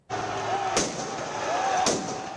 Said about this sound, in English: Fireworks were set off and piles of trash burnt on the streets of Paris.